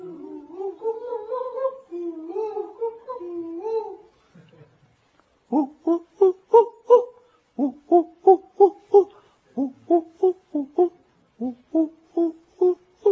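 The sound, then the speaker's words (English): A human voice imitates a koel's call. It opens with a wavering, drawn-out two-tone phrase, then gives many short, loud hooting calls in quick rhythmic groups, with no other sound. “Krishna entered Kokilavan one day, and he happily made a sound imitating the kokil. How's that sound? Anyone knows? Kokil?”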